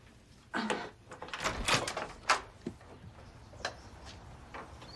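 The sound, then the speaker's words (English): A door is opened after someone feels for the doorknob: a cluster of clicks and rattles with the strongest bursts early and midway, then a few fainter knocks trailing off, no voices. “feels for the doorknob.”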